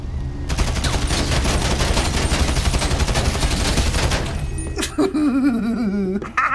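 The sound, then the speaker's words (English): Rapid automatic gunfire from an AR-15-style rifle in an open-world crime video game: a dense, loud stream of many shots lasting about four seconds before it stops. “I shot some people.”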